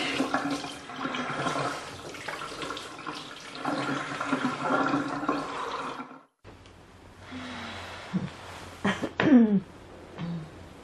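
Tap water runs steadily over a burn, a loud, broad rushing splash that stops abruptly partway through, followed by quieter, scattered water sounds and bumps.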